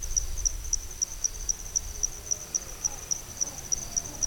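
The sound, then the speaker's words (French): Night insect chorus in the wet season, dominated by crickets: a steady, evenly spaced high-pitched chirp repeating throughout over soft, constant low background noise. “Donc on entend une biophonie qui est vraiment constituée quasi exclusivement d'insectes.”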